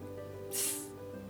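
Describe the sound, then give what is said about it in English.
A single hiss from a big dangerous snake swells up and fades away in about half a second, breathy and sharp, over a steady low hum. “There's a big dangerous snake.”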